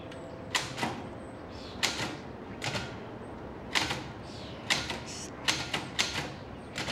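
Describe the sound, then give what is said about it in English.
A manual typewriter clacks as keys are struck in quick, irregular bursts, with many sharp, faint key strikes separated by short pauses over a low background hiss. “She rotates the cylinder to line up the sheet, then slides the carriage to its starting position. Her fingers hover lightly over the keys for a moment. Then she begins to type.”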